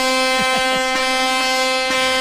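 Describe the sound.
A truck horn blares in one long, loud, steady tone with a rich buzzing timbre, held without a break for the whole stretch.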